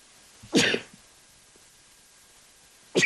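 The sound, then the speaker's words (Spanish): A person sneezes during a Spanish-language talk on regaining good humour: one sharp, breathy burst, then quiet, then another burst at the very end. “disculpen, un estornudo.”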